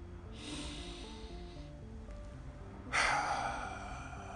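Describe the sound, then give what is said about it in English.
A deep breath: a long, airy inhale followed a moment later by a louder, forceful exhale, set over soft, steady background music. “like the beautiful and great LeVar Burton, I'll take a deep breath.”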